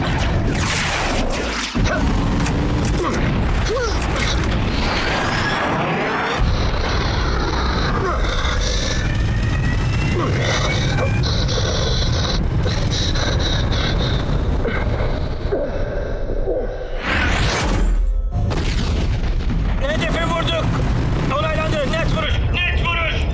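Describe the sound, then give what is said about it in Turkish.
A dropped bomb exploding: dense, continuous roaring and rumbling with heavy booms, mixed with engine-like noise and people talking throughout. “Tamamdır, kilitlendim. Hedef belirlendi, bomba atıldı.”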